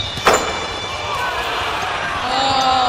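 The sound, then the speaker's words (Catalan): A basketball thuds once on a court during a three-point shot attempt at the hoop. After the single bounce, a steady background hum continues. “Enric, intentem fer un triple amb aquesta canasta que tenim aquí davant, o no?”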